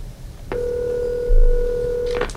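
An electronic telephone ring from an incoming call: one steady, buzzing tone that holds for nearly two seconds after a quiet start, then stops abruptly. No voices.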